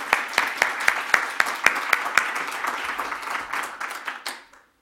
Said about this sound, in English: let's go ahead and give her a hand and welcome her, and then she'll come up after the clip